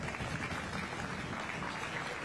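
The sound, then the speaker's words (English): Spectators applaud winning showmen after a livestock show class is placed. The clapping is a dense, even patter at moderate volume, holding steady from start to finish. “Nice job. Let's give them a round of applause.”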